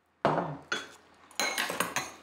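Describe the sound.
Bowls and cutlery clink as dinner is served at a family table, with several sharp, bright knocks and rattles in uneven bursts and short pauses between them, and no talk.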